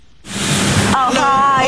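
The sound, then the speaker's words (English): A car wash in the north of England gives a loud, steady rushing hiss of spraying water that starts abruptly and continues. A voice is heard over it in the later part. “A car wash in the north of England.”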